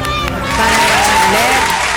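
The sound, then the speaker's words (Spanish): Applause and crowd noise greet an award winner, a steady wash of clapping mixed with cheering and overlapping voices. “Ahí está, un aplauso”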